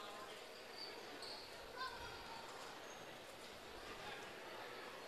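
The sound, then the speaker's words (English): A basketball is dribbled at the free throw line during a women's basketball game: a few soft, low thuds sit under steady crowd noise before the shot. “Dribbles at the line, puts the next one up, good as well. Again, very repeatable motion there by Maddie Wiley. Just dribble, dribble, shoot.”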